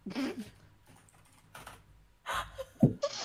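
Numbers are typed on a computer keyboard in a few short bursts of clattering key presses separated by pauses. The typing is quiet and alone.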